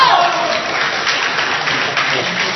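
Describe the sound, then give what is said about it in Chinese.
Audience applause at a crosstalk comedy show, a loud, dense wash of clapping that starts strongest and then settles to an even level, with voices over it. “感谢大家掌声鼓励。”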